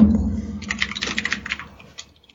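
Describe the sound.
Typing on a computer keyboard: a quick burst of soft, clattering key taps that thins out and fades to a few isolated presses.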